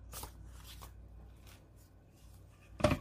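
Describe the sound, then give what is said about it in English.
Paper rustles as an envelope is handled during a letter-themed crafting challenge, with a few soft crinkles and a louder, sharper crackle at the end. “I'm gonna take an envelope”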